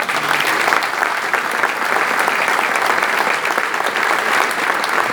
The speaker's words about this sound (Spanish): la Orquesta Escuela de Jazz, que creo que se merece un aplauso